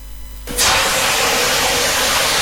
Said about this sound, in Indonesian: Aduh, kecipratan minyak panas nih.